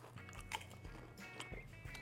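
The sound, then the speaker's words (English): Faint crunching and chewing of hot sauce flavored Pringles chips, with a few soft crisp crackles breaking through a low steady hum. “we're waiting to do this show just so that we could crack these open and eat them.”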